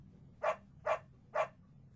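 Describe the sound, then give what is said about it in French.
A dog gives three short, sharp barks, evenly spaced about half a second apart, each a bright, mid-pitched yap over quiet background. “9. Le chien.”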